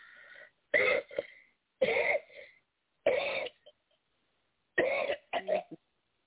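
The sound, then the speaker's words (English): Coughing and throat clearing to bring up mucus during a prayer for healing: several harsh, rasping bursts, some doubled or stuttering, separated by brief silences, with no talk. “Just bring every bit of mucus out in the name of Jesus. We thank you for hallelujah. Complete healing. It came out, too. Hallelujah. It came out.”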